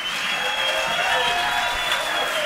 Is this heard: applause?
yes